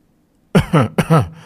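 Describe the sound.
A dry cough, given twice in quick succession: two short, rough, voiced bursts, each in two parts, loud against near silence.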